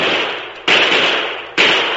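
Gunshots ring out from over a bluff: two abrupt, loud reports, each trailing into a long, noisy tail that fades only slowly, with the tail of an earlier shot dying away at the very start.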